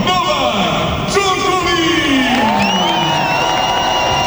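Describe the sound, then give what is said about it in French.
A tennis crowd roars, cheers and whoops as Novak Djokovic walks onto centre court. The noise stays loud and continuous, with a voice heard over it. “Résultat, les tribunes ont eu le temps de bien se remplir et le public a tout donné lors de l'entrée du Serbe.”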